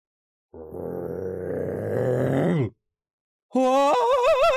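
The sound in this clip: Loud snoring from someone asleep in a cave: a long, deep, groaning rumble, a short pause, then a second, higher and wavering snore.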